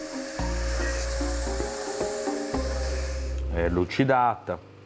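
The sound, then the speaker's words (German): Steady machine whine with a broad hissing rush as a hardened knife blade is polished, holding a constant low hum with brief dips, followed by a short burst of voice near the end. “Die fertig gehärtete Klinge wird nun an der Maschine poliert.”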